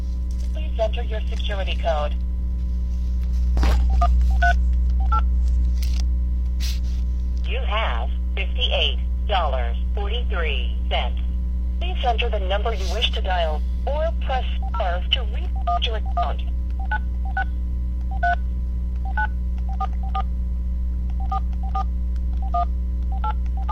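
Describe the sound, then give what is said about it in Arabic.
Telephone keypad dialing, with many short DTMF beeps in irregular bursts as a number is keyed in to place a call, over a steady low hum. “الآن نتصل بالشيخ عدنان.”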